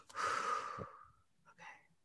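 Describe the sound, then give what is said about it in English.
A single big, deep breath, a loud airy rush lasting about a second that slowly fades, followed by a fainter, shorter breathy sound. “Wait, let me do a big breath. That was big.”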